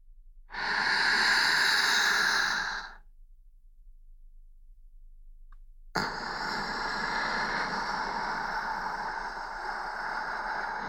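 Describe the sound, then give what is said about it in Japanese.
A slow, deep breath drawn in, heard as a long airy rush lasting a couple of seconds. Near-silence follows, then a sustained, even breathy hiss. “深呼吸をしてみましょう。私に合わせて、ゆっくり息を吸って、”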